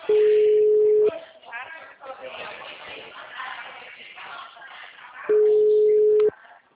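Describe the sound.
A telephone busy signal on an unanswered call: two steady, low-pitched tones, each lasting about a second, with a stretch of talk between them.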